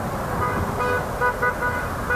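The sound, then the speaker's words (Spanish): Car horns toot a few times in short bursts amid a noisy crowd celebrating in the street, sounding over a dense, steady wash of traffic and crowd noise. “Bocinazos, alientos, mucha gente con mucha algarabía.”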